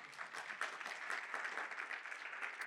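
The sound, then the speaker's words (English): Audience applause in a church: a steady wash of many hands clapping, faint and even throughout, with no voices. “And so, yes, we can clap for that one.”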